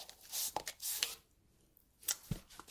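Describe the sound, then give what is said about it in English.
Soft handling sounds as a coloured pencil is put away and a pencil is picked up during sketching: quiet rustles, scrapes and light clicks in a few bursts, with no talk. “So I will put this blue away and I'm going to get a pencil again”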